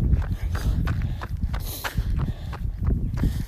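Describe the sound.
Footsteps of a runner walking during a walk break in a run, a steady series of soft, even strikes with light scuffing between them.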